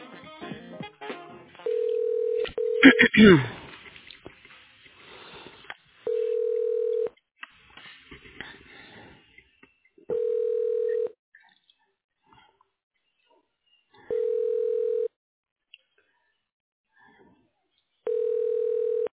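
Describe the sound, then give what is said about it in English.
Telephone tones on a call to a hospital: a brief flurry of dialing sounds, then a steady mid-pitched tone that repeats in five one-second pulses, each separated by a few seconds of quiet. “To reach a patient's room on the 10th floor, dial 70 and then the last three digits of the room number.”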